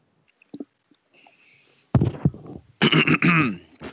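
Throat clearing by a person: faint small mouth sounds, then two loud guttural bursts, a short rough one followed by a longer, more voiced rasp.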